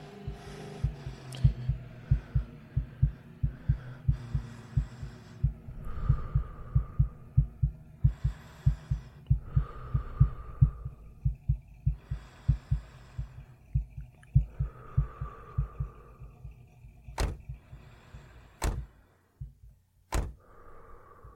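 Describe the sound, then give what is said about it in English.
A racing heartbeat sound effect plays for a person hiding in a locker as a vehicle approaches: many quick, regular, low thumps over a soft hum, followed near the end by a few sharp clicks. “My heart was racing. I feared that it'd give me away, so I tried to calm myself”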